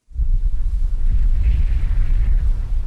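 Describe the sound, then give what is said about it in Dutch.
Wind roars outdoors in rainy weather in Middelburg, a steady, loud low rumble buffeting the microphone throughout, with no voices heard. “Het regent, het waait.”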